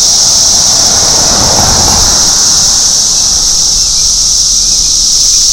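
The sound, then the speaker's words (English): Cicadas buzz in a steady, loud, high drone beside a house. A car passes once early on with a low rumble that swells and fades beneath the constant insect hiss. “So I'm standing right by my house, and what you're hearing are the cicadas and some cars that are coming by.”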